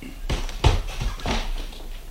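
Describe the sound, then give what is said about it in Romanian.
Knocking on a door, a few short muted raps spaced out in an uneven rhythm, moderately loud over a quiet background. “Parcă bate cineva. Se pare, nu?”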